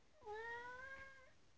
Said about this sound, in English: Hear that? That's the cat.